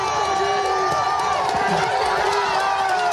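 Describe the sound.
Thousands of roadside spectators cheer at a cycling race on a steep mountain climb of 4.6 km averaging over 11%. Their noise is a dense, continuous roar that stays even throughout.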